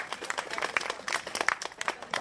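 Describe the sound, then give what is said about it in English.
Audience applause for speakers at a community event: a dense, steady patter of many hands clapping at moderate loudness, continuing without a clear break. “Can we just get another round of applause for all those incredible speakers?”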